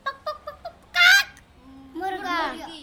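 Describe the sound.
Rooster crowing: a few short clucking notes, then a loud harsh burst, a brief pause and a longer wavering crow, heard alone.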